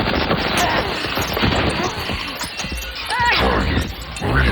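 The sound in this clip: Dense gunfire and crashing impacts fill a futuristic action scene set in Arcadia City in 2063. Loud, continuous overlapping bursts run throughout, with voices mixed into the din.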